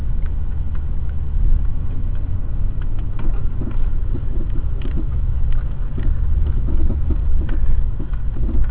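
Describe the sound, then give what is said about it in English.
Small rattles from a worn sway bar bushing and link on a car driving over a rough dirt road, with many short clanks scattered over a steady low rumble of engine and road noise. “I'm on a fairly rough little road here. It's a dirt road, but you can hear the rattle every time the wheel goes up and down. Every time you hit a bump, there's a little rattle.”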